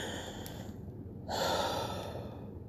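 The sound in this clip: A deep breath taken to ease anxiety, a soft breathy rush of air that swells louder in its second half and stays steady until the end, with no talking.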